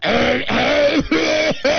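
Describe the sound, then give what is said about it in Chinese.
A person clears their throat in a few drawn-out, voiced bursts, each rough and loud with a sliding, falling tone, separated by brief pauses and with no other sound. “人清嗓子嘛，我配合人家的。”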